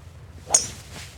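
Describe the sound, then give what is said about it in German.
Golf club swing striking the ball on a tee shot: a single quick swish ending in a sharp crack, faint around it. “nicht ohne Grund wähle ich diesen Schläger, weil gerade bei einem Kaltstart finde ich das jetzt für mich zumindest die richtige Wahl. Mal gucken, was nach dem Schlag passiert.”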